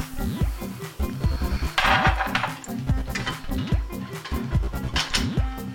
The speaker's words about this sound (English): First thing is to take my heavy pot and put on medium high so that I can saute my onions and the meat.